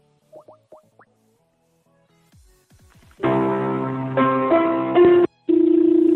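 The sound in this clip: A telephone number being dialed to call a Moscow debt collection company: a few soft clicks, then a run of loud electronic tones stepping through different pitches, with one short gap near the end.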